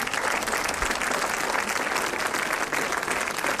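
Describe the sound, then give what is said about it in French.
Audience ovation for Omar Sy at a film screening, loud dense applause sustained evenly from start to finish. “Alors je vous demande de faire une ovation à Omar Sy.”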